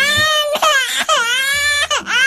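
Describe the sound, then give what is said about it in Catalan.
An infant cries at home in the early morning: loud, high-pitched wails in several sustained bouts separated by brief catches of breath. “Tranquil, allò que estàs al llit encara, i en sec sents que comença a plorar un nadó.”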